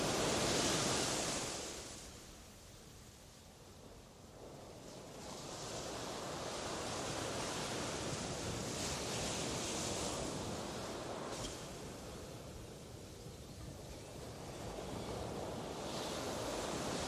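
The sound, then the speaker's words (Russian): Small waves break on a sandy beach at night in a soft, continuous wash of surf. A louder surge comes at the start, it quiets briefly, then it swells again and rolls on. “Я лежала на песке пляжа, смотрела на звезды, а поблизости от меня все еще разбивались небольшие волны.”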